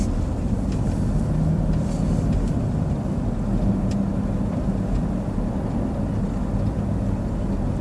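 Steady road and engine rumble of a car driving along a residential street near a school in Los Altos, a continuous even drone with no distinct events and no voices.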